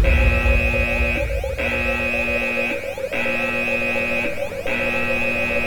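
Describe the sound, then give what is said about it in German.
An electronic alarm on board a ship blares in four loud, even bursts, each a layered buzzing tone with a short break between them. No one speaks. “Ich aktiviere den Alarm, Eure Majestät.”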